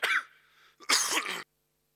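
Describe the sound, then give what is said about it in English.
A person coughs, first a short, rough cough that trails off into a faint rasp, then a longer, harsher one. Both are loud and heard alone with no speech. “Our amazing sound team was going to try to keep my coughs out of the deal.”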